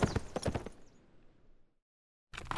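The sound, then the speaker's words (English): Hooves clip-clop as a horse is ridden off, a quick run of sharp beats that soon fades away into silence. “Grimshaw mounted up again and rode off toward Eureka.”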